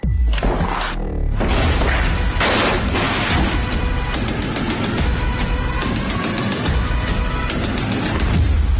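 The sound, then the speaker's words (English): A drum line in a political ad mimics automatic weapons fire with rapid, dense, loud percussive bursts that rattle on almost without pause from start to finish. “You'll note the drum line there is meant to simulate the sound of automatic weapons fire as a gang of camoed up thugs busts in the door”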